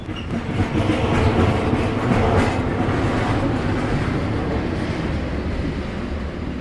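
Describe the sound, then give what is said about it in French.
A long train of many wagons rolling over the rails, a loud continuous rumble with rattling, clattering wheel noise that holds steady throughout, with no voices. “j'entends encore le roulement du train sur les rails vides”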